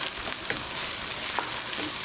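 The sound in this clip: About two spoonfuls of garlic sizzle in a pan as the base for a curry, giving a continuous crackling, hissing fry at a steady level with faint pops scattered through it.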